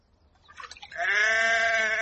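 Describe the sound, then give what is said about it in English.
A ewe bleats on a farm: one long, loud, nasal cry held at a steady pitch, preceded by a few soft scuffling sounds. “Shove that ewe into the trough, ma'am. Oh, don't let it turn round.”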